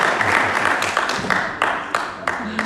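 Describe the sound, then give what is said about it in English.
Applause from a church audience: a few sharp, separate claps with short decaying tails stand out over a dense wash of crowd noise. “Come on, give her a big cheer.”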